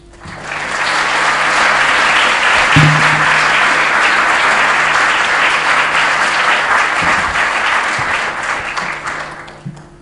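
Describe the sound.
An audience applauds to welcome a speaker at an LSE lecture: dense, steady clapping that holds for about ten seconds and then thins out at the end.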